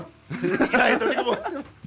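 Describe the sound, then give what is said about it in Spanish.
A person imitates a barking dog with a few gruff, voiced bursts that run close together, loud and alone without other talk. “Les ladro como un perro.”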